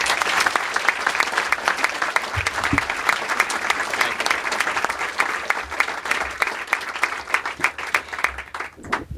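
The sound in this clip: An audience applauds to welcome author Jon Meacham to an evening talk. The clapping is dense and sustained, then thins into more separate claps near the end.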